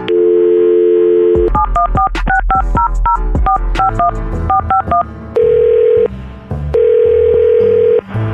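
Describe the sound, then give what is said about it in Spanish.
A telephone number being dialled to set up a radio call: a steady dial tone, then a quick run of bright touch-tone beeps, followed by two long ringback tones separated by a pause. “Vamos a marcar y cuando te conteste, pues entras tú, la saludas y le dices si quiere regresar contigo.”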